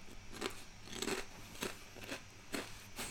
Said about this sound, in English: This is so hard. Do a podcast and eat at the same time.